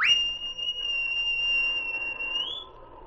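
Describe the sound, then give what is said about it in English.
A sergeant's whistle sounds one long, shrill, steady blast lasting a few seconds, its pitch lifting slightly just before it cuts off. “He heard the sergeant's whistle and raced toward his master.”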